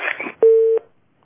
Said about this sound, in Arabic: انقطع اتصال الاخت منى.